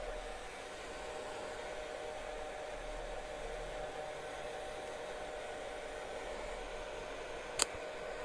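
A hair dryer blows wet hair dry with a steady, even whooshing hum that stays constant throughout at a fairly quiet level, broken only by one brief click near the end.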